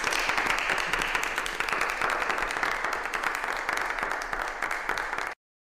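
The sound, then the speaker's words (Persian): Steady hand clapping from a group goes on for about five seconds at an even, lively pace, then stops abruptly. “آفرین، دست بزنید.”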